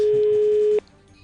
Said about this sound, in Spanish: Entonces estamos llamando a Bruselas a un restaurante.